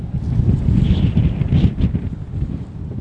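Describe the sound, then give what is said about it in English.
Strong wind blasts across barren, boggy open land with tall dry grass, a heavy, steady low roar that gusts and buffets throughout, with no talking. “It's also quite boggy in parts. I didn't come prepared. And there's wind, a lot of wind.”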